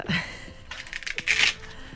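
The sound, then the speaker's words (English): Velcro seal of a six-foot-long envelope pried apart with a pen: a few short rasping rips build into a louder, scratchy tearing burst, then stop. “I'm undoing the envelope, but I'm having to use a pen.”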